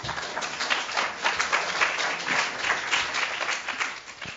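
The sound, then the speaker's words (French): Audience applause for the speakers at a university research presentation: a dense, steady wash of many hands clapping, even in loudness from start to finish, with no voices over it. “Je vous remercie, avant de leur donner la voix, d'applaudir une première fois les intervenants.”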